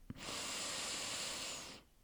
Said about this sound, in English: So I just want you to take another deep breath in